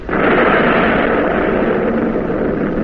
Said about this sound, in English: Director one, on target. Commence firing. Salvo. Salvo. Commence.